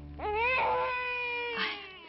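A newborn baby boy cries with a loud, sustained, wavering wail, then breaks into a second, shorter cry, heard alone.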